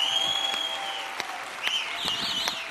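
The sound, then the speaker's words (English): An audience gives a standing ovation to welcome a guest speaker, with steady, continuous clapping at a fairly low level. A few sharper claps stand out from the wash of applause. “Got the standing O.”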